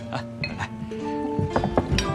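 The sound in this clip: Drinking glasses clink together in a group toast at a shared meal, with several bright, ringing taps scattered through the moment while people talk.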